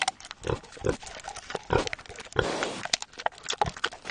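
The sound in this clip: A tame young wild boar, orphaned after hunters shot its mother, grunts and snorts in many short, irregular bursts, with a breathy snuffling stretch partway through.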